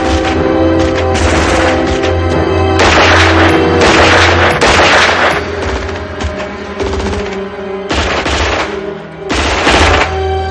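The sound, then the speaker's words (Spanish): Rapid bursts of automatic gunfire from the rooftop helipad shootout in the 1988 action film Die Hard, loud and nearly continuous, with sharp volleys and brief dips between them. “Carl dispara.”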